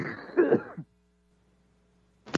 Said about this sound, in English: I got a cough. Hold on.